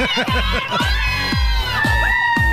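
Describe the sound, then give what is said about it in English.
Loud crowd cheering punctuated by high, sustained whoops of women partying in the Houston streets around a national championship game, a continuous dense roar with repeated shrill calls. “Yes, don't forget that famous woo. The loud, obnoxious sound women make to try to prove to others they're having a good time.”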